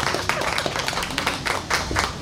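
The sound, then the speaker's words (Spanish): Spontaneous audience applause, a brief burst of brisk, dense clapping that holds steady for about two seconds. “Un aplauso para aquí. Hasta un aplauso espontáneo, qué maravilla.”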